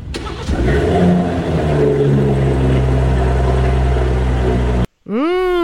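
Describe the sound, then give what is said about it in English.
An old BMW car engine revs in a loud, deep, throaty roar. It holds fairly steady for several seconds before cutting off abruptly. “The first one is the new one, is the new BMW. The second one is the old Gusheshe.”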